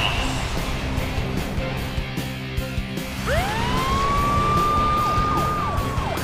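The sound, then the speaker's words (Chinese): A police escort car's siren clears the road for an important vehicle, starting midway as a rising wail that then holds a loud, sustained tone over steady background noise. “我是你的护航警察，让我为你开路。嗯。请注意，交通警示，有重要车辆通过。”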